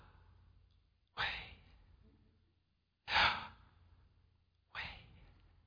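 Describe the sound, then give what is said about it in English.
Breathing that imitates a divine name: three breathy, sighing bursts roughly two seconds apart, each starting abruptly and fading out, quiet and separated by near-silence with a faint low hum. “the word Yahweh, back in the original text, it was said that it didn't really have vowels. So when you said it, your breath, you'd go,”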